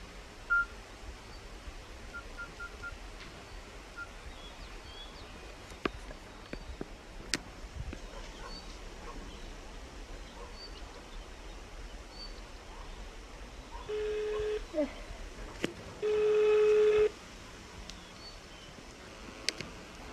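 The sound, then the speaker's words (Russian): Telephone dialing tones as a call is placed: a brief electronic tone burst followed by a longer, louder steady tone near the end, over a quiet hissing background with scattered faint clicks. “О, надо Тёме позвонить. Так.”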